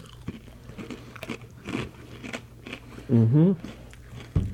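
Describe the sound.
Crunchy bites into a fortune cookie: a few sharp crackling snaps with chewing between them, a brief hummed voice in the middle, and a final crisp crunch at the end.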